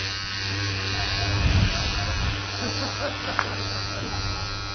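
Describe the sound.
An electric razor shaving with a steady, continuous buzz and a low hum underneath. The buzz runs the whole way through and grows slightly rougher for a moment partway in.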